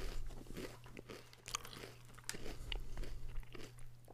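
Biting and chewing a creamy candy-flavored snack: many faint, crisp crunches and wet chewing sounds in an irregular rhythm over a low steady hum, with no talk.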